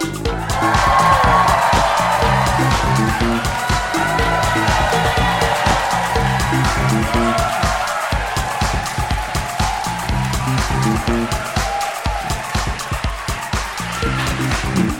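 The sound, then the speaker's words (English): Audience at a live show in Mountford Hall, Liverpool, whooping and cheering with clapping, a loud, dense roar that holds steady for the whole stretch. “Good whooping. Are you happy with that whooping? Good whooping. How do you feel the whooping compares to London? Much better whooping than London, wouldn't you say?”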